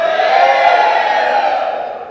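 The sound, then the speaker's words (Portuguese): A church audience shouts together in one loud, sustained collective cry of many voices that holds steady and then eases off toward the end. “Você não sabe, por causa desse grito, é que toda vez que eu ensinava a eles que essa igreja é maravilhosa, que eles são maravilhosos, eles tinham que gritar, porque vocês são maravilhosos mesmo.”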